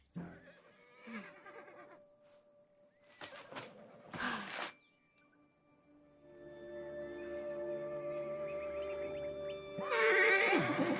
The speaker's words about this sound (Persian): زود باش بیا، بیا اینجا، تو اسب منی دیگه.